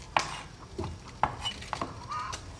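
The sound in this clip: Dishes are separated and moved into a washing basin: a few light, sharp clinks and clatters at irregular intervals, fairly faint.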